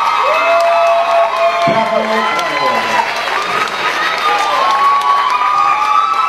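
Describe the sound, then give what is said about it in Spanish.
An audience cheers and applauds two performers, a loud, continuous wash of crowd noise with whoops and shouts. Voices and shouting children are mixed in throughout. “Yo quisiera que le repitan un aplauso más fuerte para Alexandra y Filippo.”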